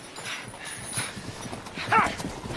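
Hooves of a horse ridden astride clip-clop in a quick, even rhythm. The hoofbeats are soft and sit under a rushing, windy noise.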